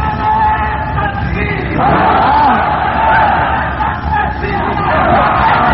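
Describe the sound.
A crowd chants slogans at a rally, many voices shouting together in a loud, sustained roar that barely dips before surging again.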